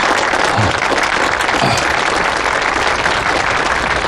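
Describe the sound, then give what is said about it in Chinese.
Applause from wedding guests as the groom's parents are invited onstage: loud, dense, steady clapping that fills the whole clip without a break. “朋友们，掌声有请。”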